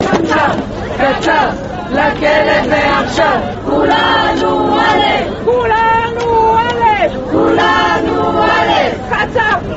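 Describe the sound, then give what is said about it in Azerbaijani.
Women's rights activists gathered outside a court building, loudly shouting and chanting to demand the immediate jailing of a former president. A dense, continuous mass of crowd voices with raised cries. “Məhkəmənin bu qərarını alqışlayan qadın hüquqlarını müdafiə fəalları binanın qarşısına toplaşaraq keçmiş prezidentin dərhal həbsə göndərilməsini tələb ediblər.”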